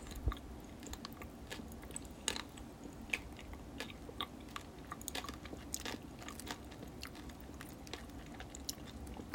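Chewing of ramune-flavoured popping gummy candy, heard as a faint, steady stream of tiny crackles and crunchy clicks for about nine seconds, with no talking.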